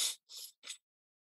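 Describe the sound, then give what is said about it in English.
Three quick fire breaths forced in and out through the nose during a breathing exercise, short hissy puffs with brief gaps, heard alone. “We're going to do it a little bit slower just to get the action of the belly, and then we'll speed it up. Okay. So just 10 fire breaths in and out the nose.”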